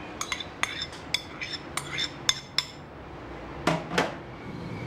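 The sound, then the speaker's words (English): A shopkeeper scrapes leftover food from bowls into a plastic container. Utensils strike the bowls in a string of bright clinks at an uneven pace, then two heavier scraping, clattering bursts close the sequence. “The shopkeeper scrapes leftover food from bowls into a plastic container.”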